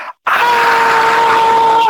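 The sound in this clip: A voice imitates a hurt toddler screaming: one loud, sustained shriek at a steady, fairly high pitch, held for well over a second before cutting off.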